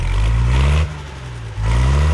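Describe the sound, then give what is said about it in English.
A tractor engine is started and runs with a loud, low rumble that dips briefly near the middle, then surges back to full strength. “Let's get the tractor started up.”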